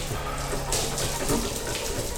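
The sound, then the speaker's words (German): A hot shower runs with water spraying in a steady, hissing rush that fills the whole clip at an even level, with brief splashy flickers within the flow. “Asmo stand eine halbe Stunde unter der heißen Dusche.”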